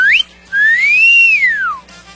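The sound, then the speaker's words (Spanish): A person whistles a catcall: a short upward swoop followed by a longer note that rises and then falls. The whistle is loud, clear and alone. “¿por qué tiene que estar chiflando a las mujeres? ¿Qué es eso de...? A ver, chifla”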